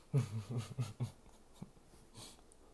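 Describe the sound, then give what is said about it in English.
Soft, muffled woofs from a female dog barking in her sleep: a quick run of low, short yips, then a few fainter huffs and breaths, quiet throughout. “Why is my dog making all that noise? She up here barking in her sleep, y'all. She dreaming.”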